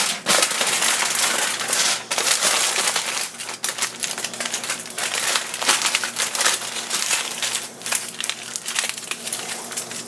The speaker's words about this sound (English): potato up in the tin foil. Set it on the edge of the sheet and then just roll it up.